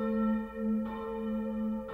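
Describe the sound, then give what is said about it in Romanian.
Church bells ring for a wedding, a sustained resonant hum of bell tones that is renewed by two fresh strikes, fairly faint and with no voices. “Vai de mine, bat clopotele pentru nuntă!”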